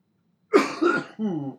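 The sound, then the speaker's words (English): A person coughs in a quick, rough fit of a few bursts that ends in a voiced, throaty rasp. The sound is fairly loud and stands alone, with no speech. “Sorry, had the cough there.”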